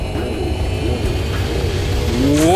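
An airplane takes off with a steady engine roar that swells toward the end as a whining tone climbs sharply in pitch.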